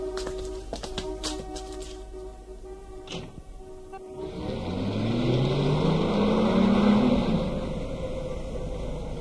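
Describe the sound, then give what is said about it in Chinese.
Car driving off after a few light clicks and taps, its engine swelling into a rumbling hum that rises in pitch through the second half, with no voices. “803跟随着那个人乘车往东，汽车七拐八拐的，不一会儿就停在一家桑拿浴室门前。”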